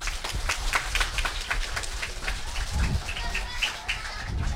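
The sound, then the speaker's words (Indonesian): An audience claps for a kindergarten group being introduced at an event, a busy patter of many hands at moderate loudness that carries on steadily from start to finish. “Boleh dong tepuk tangannya.”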